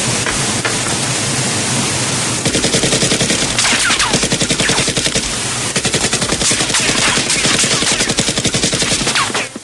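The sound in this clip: Sustained rapid automatic gunfire erupts in a film action scene by a waterfall, following about two seconds of steady rushing noise. Loud, dense bursts run for roughly seven seconds, then cut off abruptly, with no voices.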